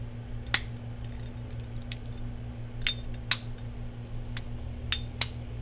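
Faint, sharp clicks and ticks come from a pod vape device being handled while someone tries to open it. Several isolated taps are spaced over a quiet, steady hum, with no talking.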